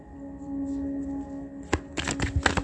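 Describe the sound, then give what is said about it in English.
Tarot cards being shuffled and falling out of the deck: a low steady hum first, then a cluster of short, papery flicks and slaps coming in quick succession over the last second or so. “All these cards dropping. Like I said, it finally fell out.”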